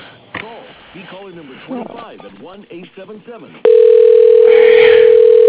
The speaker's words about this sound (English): I'll do that for you, but I'll be happy to transfer you to his voicemail.